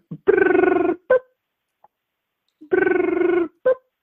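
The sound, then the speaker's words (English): An African grey parrot mimics automated phone-system noises: two long, buzzy electronic tones, each opened by a short click and followed by a brief blip, with a pause between the two sequences. “this African gray goes through like the whole like phone answering routine where it like makes the noises like of the phone system when it's calling in”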